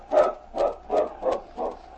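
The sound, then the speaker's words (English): A large dog whimpering: five short, evenly spaced whines of moderate loudness, each a brief tonal cry, heard alone. “In front of the cafe, King stopped and stood whimpering.”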